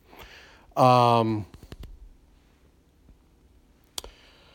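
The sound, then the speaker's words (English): Computer mouse clicks as someone opens an online Bible: several sharp, brief clicks after a short spoken phrase, with one louder click near the end. “if you hear a click, that's me going to my online Bible.”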